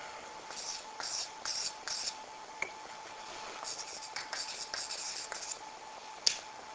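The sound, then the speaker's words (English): Scratchy strokes of a diagram being drawn on a board, a steady series of short, hissing bursts in irregular rhythm, with a sharp tap near the end and no voices. “So I'm going to draw this now so that the visible's on the bottom and the hidden's on the top.”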